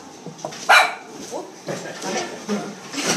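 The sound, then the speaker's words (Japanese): A pet dog named Angie barks at home: a few sharp barks and yips, the first one loudest, with softer whimpering sounds between them. “今あやちゃんのね飼ってる犬が鳴きました、アンジーっていうのね”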